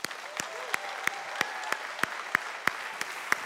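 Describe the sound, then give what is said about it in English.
Applause from a church audience welcoming a guest. Sharp, evenly spaced claps, about three per second, stand out above a continuous wash of clapping. “would you do a big Cornwall Church welcome to our guest, Jake Locker.”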